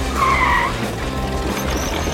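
Tires squeal as a racing bathtub car with a sidecar skids at speed. A high screech rises over a steady roar in the first half, then the noise carries on alone.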